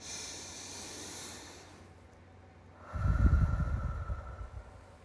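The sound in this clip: A single deep breath, a soft, airy rush with a low snort-like edge that swells and fades over about two seconds after a quiet stretch of faint hiss.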